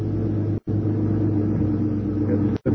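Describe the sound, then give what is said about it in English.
A car being driven gives a steady, low engine rumble, broken by two very brief gaps. “It's very kind of you to drive me home like this”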